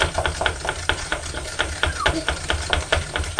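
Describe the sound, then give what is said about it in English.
Stirring of an icing sugar mixture in a bowl: many quick, regular scraping taps in a steady rhythm, moderately loud throughout. “A lot more icing sugar in the bowl. Right, you're going to help stir.”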